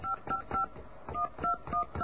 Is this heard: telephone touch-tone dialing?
yes

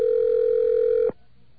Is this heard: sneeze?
no

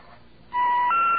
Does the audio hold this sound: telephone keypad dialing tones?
yes

